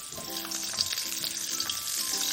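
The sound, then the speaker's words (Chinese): Ginger slices, garlic cloves and scallion sizzle in hot oil over low heat, giving a steady, dense crackling hiss that runs the whole time, with faint low humming tones underneath. “油热了以后开小火，然后姜片、蒜瓣、葱爆香”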